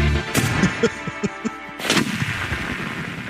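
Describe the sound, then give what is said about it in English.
Paintball rounds splattering, fired by a property-protection device: a string of sharp pops and smacking impacts in quick succession, then a louder burst with a noisy, fading tail. “That splatter you're hearing is paint. Paintball? Okay. Yeah, it's not like they're not shooting them, but it's a paintball.”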